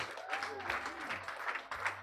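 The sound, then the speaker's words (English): A church audience applauds with a steady, moderately loud wash of many hands clapping, and voices are mixed in underneath. “Clap for the Lord Jesus.”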